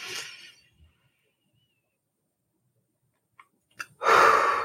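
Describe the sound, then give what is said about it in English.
A deep breath: a short breathy rush of air, about three seconds of silence, then a loud, longer drawn breath at the end. “Let's just take a collective deep breath. I'm just going to inhale”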